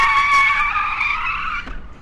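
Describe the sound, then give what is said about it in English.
Car tyres skidding and squealing as young men burn rubber on a waterfront: a loud, sustained high-pitched screech that holds steady, then breaks off and fades near the end. “Every evening, young men show up on the waterfront to burn rubber for kicks.”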